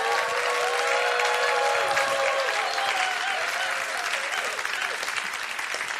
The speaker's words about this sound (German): Ein paar Klatschen, preist den Herrn.